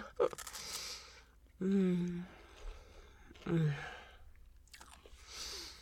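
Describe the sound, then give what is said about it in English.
Someone bites and chews a soft, creamy sweet coated in a hard glossy glaze: quiet wet chewing and crunching mixed with voiced murmurs, between short pauses. “And I love that hard glossy glaze they have on the outside. The texture is so divine, they melt in the mouth. And one more bite.”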